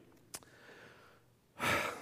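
A deep breath drawn before praying: after a quiet stretch with one short click, a single long, breathy rush of air swells up loudly and lasts about half a second.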